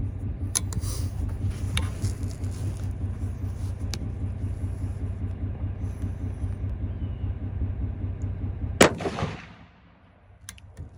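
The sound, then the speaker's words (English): A single sharp rifle shot, fired at a 100-yard target, cracks near the end over steady background noise. The noise then drops away to near quiet. “Here we are, shot number three. I've made the adjustments. I brought it back over 3 inches and up 1 inch.”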